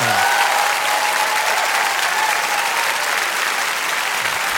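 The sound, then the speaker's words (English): An audience applauds in a loud, dense, steady wash of clapping that continues without a break from start to finish. “Tom says that's more people applauding than we're at the Trop tonight.”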